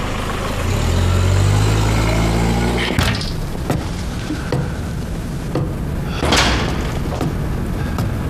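A car engine rumbles steadily for about three seconds, then cuts off at a sharp slam, followed by scattered clicks and knocks.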